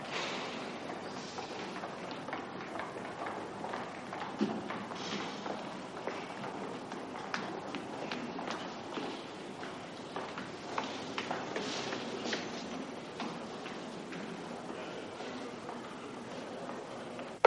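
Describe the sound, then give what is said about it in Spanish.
Quick footsteps run down courthouse stairs, a long series of faint, light taps and thuds spread across the whole stretch at an uneven, hurried pace. “Se va corriendo. corre por las escaleras de los tribunales.”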